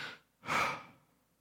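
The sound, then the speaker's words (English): A person draws in a breath, a soft, airy rush that swells and fades over about half a second, following a fainter, shorter breath sound. “the beginning of Yahweh is, it's a breath taken in, and it's like an awe of God, Yahweh. But it's this.”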